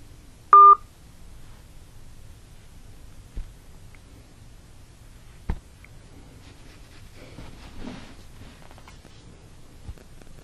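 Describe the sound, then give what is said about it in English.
A single short telephone keypad tone on a prepaid calling line, followed by a few faint, scattered clicks over low line hiss. “You have reached a non-working number. Please check the number and dial again.”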